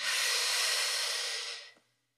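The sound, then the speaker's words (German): Deep inhale during a relaxation breathing exercise for back pain, a loud, steady airy hiss that holds for over a second and a half, then tapers off quickly into silence. “Atme. Fünf Sekunden ein.”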